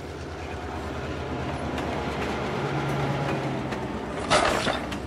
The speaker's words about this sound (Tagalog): Sumara ang pintuan ng tren at mabilis itong tumakbo papunta sa susunod na istasyon.